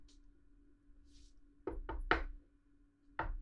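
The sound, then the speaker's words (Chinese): Knocking on a door: three quick, solid raps close together, a pause, then one more knock, each a sharp thud over a steady low hum. “有人敲门。谁？”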